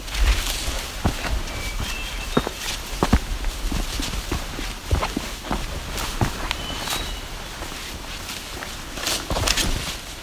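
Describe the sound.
Footsteps walking along the edge of an escarpment: many irregular, crunching steps over a steady, broad hiss, with no voices.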